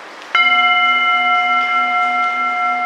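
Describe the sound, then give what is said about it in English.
A Tibetan singing bowl struck once with a stick in a cave, giving a sharp onset and then steady, layered ringing tones that sustain evenly over a faint background hiss. “I'm going to use a particular type of stick to play the Tibetan singing bowl so we can try and cut through some of the other sounds.”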